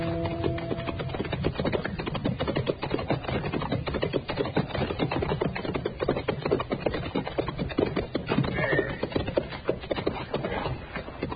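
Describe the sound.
Hoofbeats of horses as riders travel together: a dense, steady clatter of quick, overlapping beats that runs throughout at an even loudness.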